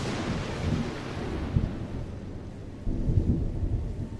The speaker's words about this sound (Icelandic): Nú skellur óveðrið á. En þið fáið byr til Íslands.